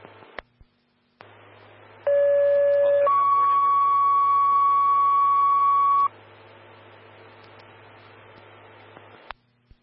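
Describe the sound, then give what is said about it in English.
Fire dispatch alert tones for a heart-problems call come over a radio: a steady lower tone of about one second, then a longer, higher tone of about three seconds. Both are loud above a low radio hum, with brief clicks at the start and end. “stand by for tones on heart problems.”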